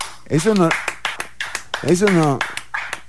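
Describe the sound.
Sparse clapping at the close of a show, sharp separate claps in a loose rhythm heard between and beneath a speaking voice.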